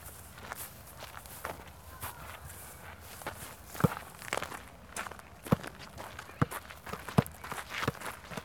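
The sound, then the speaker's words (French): People walking produce many irregular footsteps with crisp, crunchy impacts and a few sharper knocks standing out, moderately loud and steady, with no clear talk. “C'est nous en train de marcher.”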